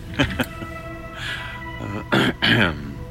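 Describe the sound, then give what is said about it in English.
A man clears his throat in a few short, rough bursts, with a low hum between them and a stronger pair of rasping bursts near the end. “He awkwardly resituated himself and cleared his throat.”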